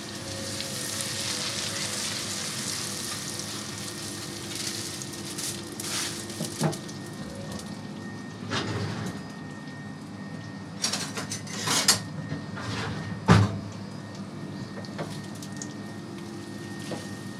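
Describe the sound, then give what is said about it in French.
Butter sizzles in caramel in a pan with a steady, bright frying hiss. A few brief, sharper clicks and scrapes stand out from the hiss. No one speaks. “Là on va juste venir nourrir un peu le caramel avec un peu de beurre.”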